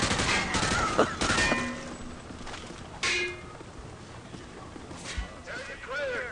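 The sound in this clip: Gunfire from a dummy target in a video game shooting range: bursts of sharp, rapid shots that come and go, with one louder crack standing out among them.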